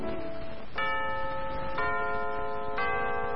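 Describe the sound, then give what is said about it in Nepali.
A clock chime rings as a radio time signal marking six o'clock in the evening. A few bell-like tones strike about a second apart, each ringing on clearly and evenly over a quiet background. “साहिनो समय सूचक अहिले साँझको 6 बज्यो”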